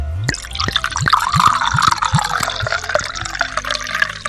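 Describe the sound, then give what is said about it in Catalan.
Marc de Banyuls brandy is poured from a minibar bottle into a glass, a trickling, gurgling stream with small splashing drips that runs steadily for several seconds with no voices. “Des del minibar, ell li va servir un got de Marc de Banyuls.”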